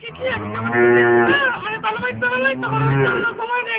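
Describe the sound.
A cow moos in long, low, drawn-out calls that are loud and clearly voiced, with people talking over and between them.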